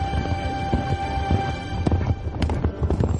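A horse gallops during horseback archery, its hooves beating out a rapid, uneven clip-clop of hard thuds, with a few sharper, louder strikes toward the end.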